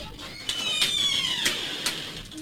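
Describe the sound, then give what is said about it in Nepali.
A door creaks open with a thin, high squealing hinge that wavers in pitch, broken by a few short sharp clicks. “कति बेर लगाए कि जाबो ढोका खोल्न पनि।”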